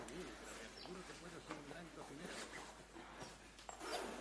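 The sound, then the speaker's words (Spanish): The front zipper of a dress is pulled up in a short, soft rasping run that sits faint beneath a voice speaking over it. “Le sube la cremallera delantera.”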